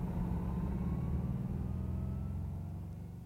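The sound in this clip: Car engine droning as a car drives to a warehouse, a steady low rumble with no clear gear changes, fairly quiet and easing off slightly toward the end.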